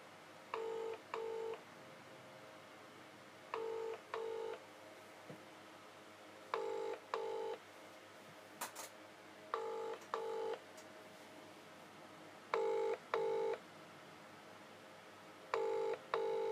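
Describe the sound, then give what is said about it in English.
Ringing of an outgoing call on a UK mobile network goes unanswered: six double-pulse rings, each a pair of short buzzing tones, repeat at steady intervals of about three seconds, with near silence between them. “I'll try ringing Sophie. Sophie always has something to talk about when it's with me. Okay. Please answer, I beg you.”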